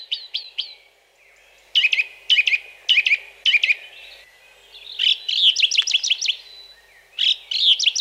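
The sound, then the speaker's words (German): A song thrush sings clear, sharp whistled phrases. A short motif is repeated four times in quick succession, then a rapid trill-like series follows, with brief pauses between phrases and no other sounds. “Die Singdrossel findet alles, was sie singt, so wichtig, dass sie es gleich mehrmals wiederholt.”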